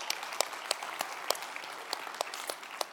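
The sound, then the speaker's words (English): Audience clapping: sparse, fairly evenly spaced claps, crisp but faint, forming a thin, loose patter rather than a full ovation. “What are you clapping about? What's all this enthusiasm about so many years, right?”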